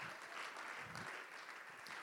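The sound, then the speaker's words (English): Congregation clapping hands in praise during a church service, a steady, dense wash of many hands applauding at moderate level with no clear gaps. “why don't you give the Lord a hand clap of praise right now?”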